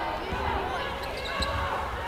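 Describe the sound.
A basketball dribbled on the court during a women's college game, its steady low thumps running beneath continuous commentary and crowd noise.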